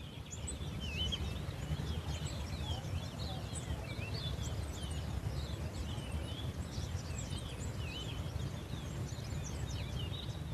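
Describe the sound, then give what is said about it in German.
Birds chirp and twitter outdoors near Table Mountain, South Africa: many high, quick calls scattered throughout over a steady, dense rushing background, with no single call standing out. “und man sitzt da und beobachtet die Vögel, die hier vorbeifliegen, und also du hörst es schon im Hintergrund, hier sind einige Tiere.”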